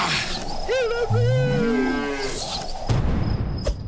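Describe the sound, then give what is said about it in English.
A cow tied to a rope moos in a video game, one long, low, wavering moo over constant background noise. “The cow's tied to a rope.”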